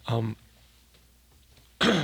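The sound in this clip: Rough throat clearing from someone with a frog in their throat: a short gravelly burst, then near quiet, then another brief loud voiced burst at the end.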